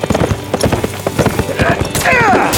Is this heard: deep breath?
no